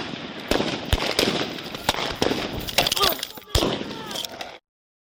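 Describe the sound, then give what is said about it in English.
Gunfire captured on a police body camera during a neighborhood shooting in Farmington, New Mexico: several sharp, loud bangs at irregular intervals over a cluttered, noisy background, with some voice activity mixed in. “lot of gunfire, and this shows the moment that a police sergeant in northern New Mexico was shot after responding to the scene.”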